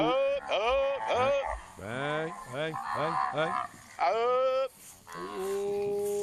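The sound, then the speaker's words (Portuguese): Cattle in a herd moo from a video played on a phone: several long, loud, wavering calls overlap and follow one another with almost no break. “Rapaz. Bom demais, bom demais. Rapaz, boiada boa.”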